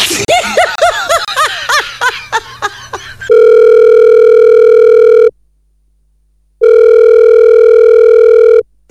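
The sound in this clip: Laughter at the start, then a telephone ringing tone: two long, loud, steady electronic buzzes with a stretch of silence between them.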